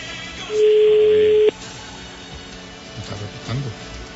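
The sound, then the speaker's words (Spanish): One telephone ringback tone during a call: a flat, buzzing beep held for about a second that cuts off abruptly, followed by faint voices. “A ver, vuelve a marcar eso. Usted sí podría atenderlas. Sí, todas, perfectamente. A ver, timbrando. Timbrando, a ver, suénelo.”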